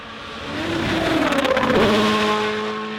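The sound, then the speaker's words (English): A rally car on a very fast stage in Finland roars past at high revs. The engine note climbs and then drops as it goes by, with a loud, sustained buzzing roar throughout. “The cars are going to be flying here in Finland.”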